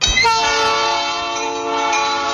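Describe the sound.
A locomotive horn blares loud and steady, its chord of sustained tones holding for the whole couple of seconds over a low rumble.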